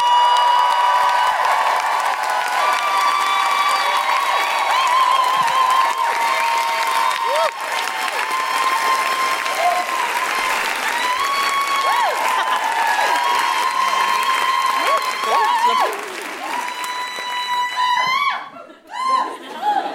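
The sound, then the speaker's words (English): Applause, cheering and woohooing from a Newcastle comedy audience welcoming a comedian, a dense, steady wash of clapping and whoops that holds loud for most of the stretch and turns more broken near the end. “Please put your hands together and make extraordinary Geordie woohooing noises for Sammy Dobson!”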